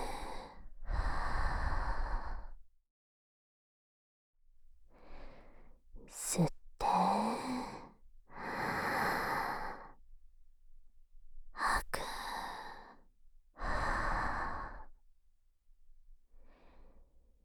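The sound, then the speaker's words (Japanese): Deep breaths drawn in and let out during a guided breathing exercise: slow, airy rushes of breath, each a second or two long, separated by short pauses, repeated many times at a calm, even pace. “息を大きく吸って、吐いて、”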